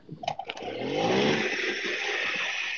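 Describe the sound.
A small motorcycle engine shifting into gear: a few clunks, then the engine surges into a loud, steady, buzzing drone.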